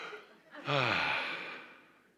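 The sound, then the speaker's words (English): A single deep breath, a sharp swelling intake that peaks quickly and then trails off into a long soft exhale, fairly faint and heard alone. “I need to take a deep breath.”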